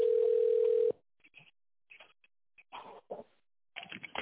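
Telephone ringback tone while a call is transferred to a secretary: one steady, loud tone lasting about a second, then a quiet line with scattered faint bursts of crackling noise.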